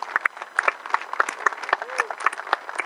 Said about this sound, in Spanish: Le recibimos con un gran aplauso.